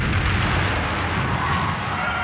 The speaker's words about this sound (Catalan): Com que la bomba està camuflada, ningú li fa cas. Pocs segons després, l'explosiu acaba petant.